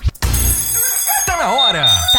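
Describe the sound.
An alarm clock rings in a radio advert: a bright, continuous metallic ringing that runs steadily for about a second before a voice starts speaking over it as the ring carries on.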